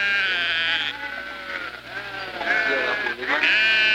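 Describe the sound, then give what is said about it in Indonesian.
Sheep bleat as a shepherd counts his flock, with long, wavering, nasal calls overlapping almost without a break throughout, loud and alone. “Mbaya si biri-biri walina, itu montan parirung. Mana mai si gembala rumeken sebiri-birina pengesang-esan.”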